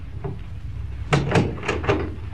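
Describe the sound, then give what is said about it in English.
A door being closed: a few sharp knocking impacts in quick succession, with a dull thud under each, after a quiet stretch with faint background noise. “Come in and close the door.”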